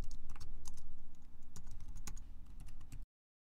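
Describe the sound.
Keys clatter on a computer keyboard as a new password is typed for the root account on Kali Linux, in many quick, even keystrokes for about three seconds before stopping.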